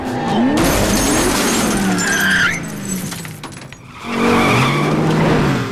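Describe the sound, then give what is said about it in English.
Tires screech as a car skids under hard braking during a chase down a narrow side street. The screech is loud and sustained, dips briefly, then resumes just as strongly. “slams on her brakes.”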